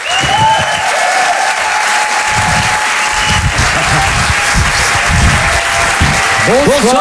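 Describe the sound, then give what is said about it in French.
A live stage-show audience applauds and cheers, a loud, dense, steady wash of clapping that continues throughout, with some voices raised within it. “En direct et en live sur Rire et Chanson, faites du bruit s'il vous plaît pour les jumeaux.”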